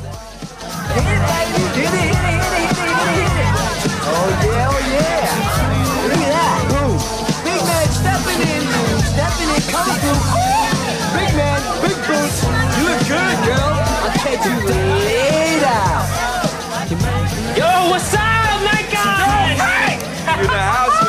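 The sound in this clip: Dense crowd chatter fills a party, with many overlapping voices forming a steady, loud babble that never lets up from start to finish.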